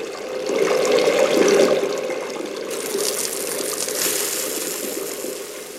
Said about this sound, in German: Bitte sofort die Hände waschen.